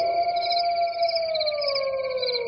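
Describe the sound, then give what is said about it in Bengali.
Jackals howling at night with crickets: one long, smooth wailing tone that sinks slowly in pitch, with thinner wavering bands layered above it, sustained without a break for the whole stretch. “এক টানা ঝিঁঝি ডেকে চলেছে। এবার তার সঙ্গে শিয়ালের ডাক যোগ হল।”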